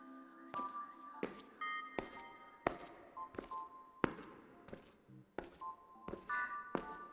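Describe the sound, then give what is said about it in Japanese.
Footsteps walk along an empty school hallway after classes: many evenly spaced, sharp steps with a steady walking rhythm over a faint tonal background. “少し廊下を歩いてみましょう。”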